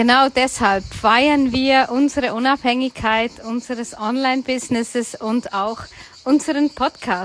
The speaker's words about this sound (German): Vielleicht hörst du die Zikaden und der Wind hier in Südfrankreich